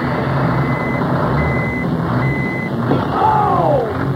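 Reversing beeps from a big rig truck pulling up: three steady, high electronic beeps sound evenly over a continuous low, loud engine rumble.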